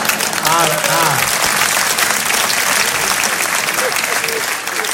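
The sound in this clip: Audience applause at a lecture, a dense, steady roar of clapping that holds for about five seconds, with a voice briefly heard at the start.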